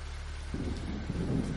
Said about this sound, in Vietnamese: Kèm theo mưa lớn là tiếng sấm nổ động trời.